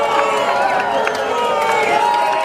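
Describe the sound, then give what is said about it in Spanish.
Spectators at the Tour de France finish line booing Team Sky as the riders cross: a steady, loud wash of crowd noise with many mingled voices. “Decía Thomas que nada más atravesar la línea de meta, el equipo de Sky fue abucheado.”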